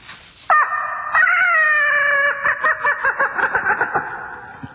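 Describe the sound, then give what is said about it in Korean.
A rooster crows loudly outside a window at dawn on a summer morning, one long, strained, high harmonic call that breaks into a quick series of pulsed notes at the end, with no talk. “그것도 그냥 닭이 아니었습니다. 마치 마이크를 잡은 것처럼 쩌렁쩌렁 울리는 닭.”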